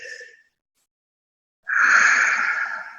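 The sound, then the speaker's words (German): A breath drawn in through an open mouth: a brief airy breath, a pause, then one long, loud, hissing inhale. “Atmen, am besten mit offenem Mund, einatmen”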